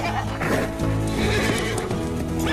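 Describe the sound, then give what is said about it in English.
A horse rears up and lets out a loud, shaky whinny that lasts the whole clip, with faint hoof clatter beneath it. “horse rears up. Whoa, down, boy.”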